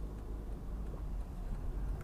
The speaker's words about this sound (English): I'm just in a bit of traffic at the moment